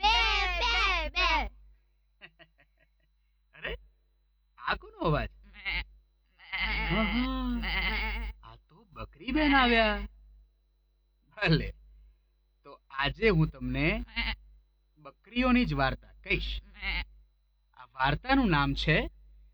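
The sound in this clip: Goats bleat in a children's story segment, giving many short, wavering, nasal cries in irregular bursts separated by brief silences.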